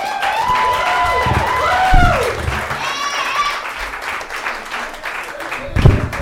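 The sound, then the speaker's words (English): Applause and cheering from the crowd at a Friday night comedy showcase in a tavern as a comedian is called to the stage. The clapping runs steadily under voices calling out and talking throughout. “Ladies and gentlemen, put your damn hands together for April Caprillion.”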